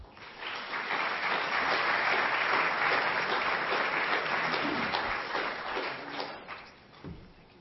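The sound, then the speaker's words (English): Audience applause welcoming guest speakers: dense, steady clapping from a crowd that holds for several seconds, then thins and tapers off near the end. “But please just give them a hand of welcome.”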